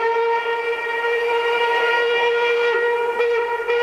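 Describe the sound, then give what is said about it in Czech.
An express train's whistle sounds as a sustained, steady chord of bright harmonic tones, loud and unbroken for nearly four seconds with a faint rumble beneath and no voices. “Náš ostře sledovaný rychlík 651 projel už Mýto, Kařízek, Zběroch, Cerhovice a blíží se...”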